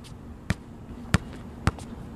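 A basketball bounces on an outdoor court as a family shoots around: three sharp, hollow thumps, roughly half a second apart, over a quiet background.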